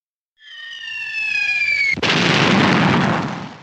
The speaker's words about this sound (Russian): Еще один снаряд из пушки разорвался чуть ближе. В низинку угодил.